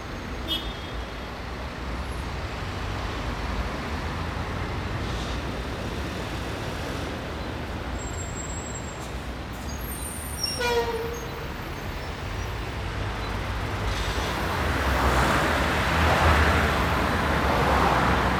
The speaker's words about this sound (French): les flux de circulation tels qu'on les entendait du dessus du pont, l'agitation du cours Jean Jaurès